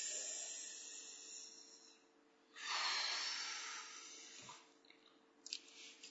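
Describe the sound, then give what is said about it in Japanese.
A deep breath taken on instruction during a short rest break: a slow, airy inhale swells and fades over a second or so, quiet against a faint steady hiss, followed by soft breathy rustles. “よし、はい、深呼吸。”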